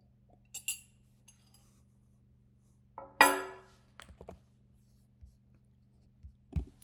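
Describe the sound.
A teacup clinking while tea is drunk: faint scattered taps, then one louder, bright clink-like knock midway, followed by a few soft knocks over a quiet low hum.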